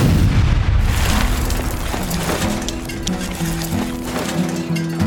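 A blast explodes in a bootleg coal mine: a loud, deep boom at the start that rumbles and slowly decays.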